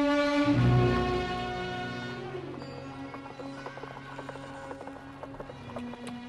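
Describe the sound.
Horse hooves clip-clop as the animal pulls a carriage, a steady run of light, regular hoofbeats continuing to the end after a brief tonal music passage at the start, with no voices.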